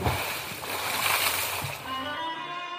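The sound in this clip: Water splashing as a fish drops into a pond. A few brief splashes break over a continuous watery wash of moderate loudness.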